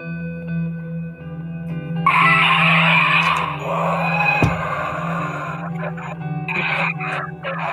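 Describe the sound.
Tires screech as an American car skids, a loud, sustained squeal erupting about two seconds in and holding for several seconds over a steady engine drone, followed by shorter bursts of squealing.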